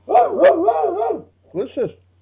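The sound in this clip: A man imitates a sheepdog barking, with a long, drawn-out, woofing yelp followed after a pause by two short, sharp barks.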